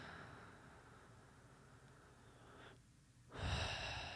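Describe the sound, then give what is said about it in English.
A slow, calming breath taken during a relaxation exercise, soft and faint, with a long steady airy stretch, a brief quiet gap, then a fuller breath at the end. “And as I breathe, I can just kind of get calm.”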